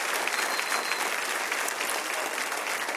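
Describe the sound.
A church audience applauds during a service: dense, continuous clapping that stays at an even, moderately loud level throughout, without distinct cheers.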